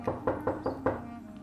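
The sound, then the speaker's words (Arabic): Knocking on a door: five quick, evenly spaced raps, each a sharp, moderately loud thud, followed by a short quiet stretch. “عادي ندقوا الباب ونسمعوا الجواء.”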